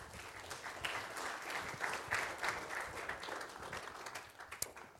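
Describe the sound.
Fairly quiet audience applause welcoming a speaker back. Many distinct claps form a steady, crackling wash that swells slightly in the middle and then eases off.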